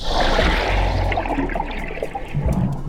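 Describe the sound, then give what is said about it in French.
Water whooshes out as an octopus forcefully expels it through the siphon on the side of its head to flee. The loud, churning rush continues for a few seconds. “la pieuvre aspire de l'eau dans son manteau et l'expulse violemment vers l'avant par son siphon, un tube placé sur le côté de sa tête”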